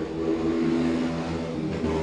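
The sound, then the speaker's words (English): A motorcycle with no exhaust fitted revs loudly, giving a raw, buzzing engine drone that holds steady for two seconds with slight wavering. “yes, there's somebody with a new toy to play with, isn't it? Obviously can't afford an exhaust for that bike.”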